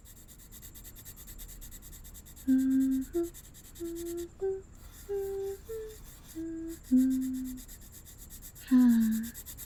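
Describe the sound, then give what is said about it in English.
Sketching on paper, heard as a series of short, squeaky strokes separated by brief pauses over a faint scratchy hiss. “All right, I'll do just that. And while I'm waiting, I might as well make a few sketches.”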